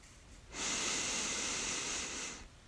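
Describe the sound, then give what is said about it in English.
One deep breath during a guided breathing exercise: a single long, soft, airy rush of air lasting about two seconds, rising in and fading out, heard on its own against quiet background hiss. “Take a deep breath.”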